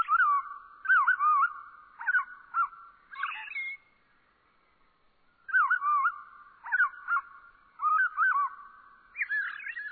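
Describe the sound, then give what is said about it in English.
A robin's evening song slowed to half speed comes as warbling, chirping phrases in short bursts, with a clear pause midway before the singing resumes. “Let's listen more closely to the fine detail of a robin's evening song by slowing down the same notes to half normal speed.”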